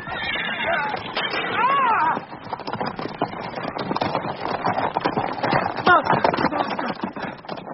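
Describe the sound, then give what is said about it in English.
Horse galloping, its hooves clip-clopping in a fast, steady, continuous patter, with a voice heard over part of it. “King Arthur's galloping.”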